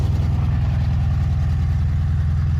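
An old 40-horsepower car engine idles steadily with a low, evenly throbbing rumble. It stays loud and continuous throughout, with no voices.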